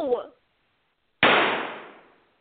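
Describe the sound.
A single sharp gunshot cracks out after a brief voice, its bright burst fading over about a second.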